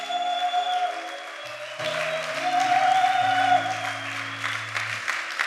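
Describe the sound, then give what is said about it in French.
Church audience acclaiming and applauding, with steady moderate clapping over sustained musical tones that carry on beneath it. “Alors, est-ce qu'on peut fêter, est-ce qu'on peut acclamer pour ceux qui sont à l'honneur?”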